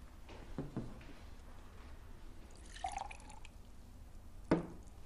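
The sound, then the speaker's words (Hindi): Water is poured for drinking, heard as faint liquid trickles and a few small drips, with a sharper splash near the end against quiet background noise. “क्या मैं थोड़ा सा पानी P लूं? P low.”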